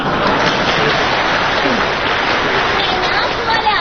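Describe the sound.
Audience applause at a stage comedy show, a dense, steady wash of clapping that stays even in level for the whole stretch without pause.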